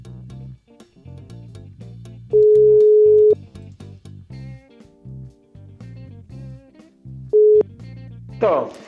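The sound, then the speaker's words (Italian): A telephone ringback tone sounds while a call is placed: two steady mid-pitched beeps over other background sound. The first lasts about a second, and a shorter one comes roughly four seconds later. “Andiamo a chiamare e vediamo chi è.”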